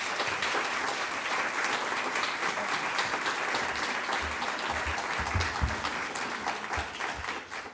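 Applause from an audience welcoming an author at the LA Central Library: many hands clapping in a full, continuous patter that stays even throughout, with a few soft low thumps mixed in.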